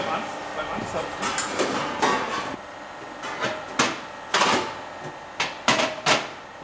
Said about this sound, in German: Genau, fängt er an und schaut und jetzt baut er Druck auf, macht so eine Dichtheitsprobe und jetzt hält das, genau.